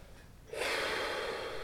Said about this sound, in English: Take a few nice warm-up breaths.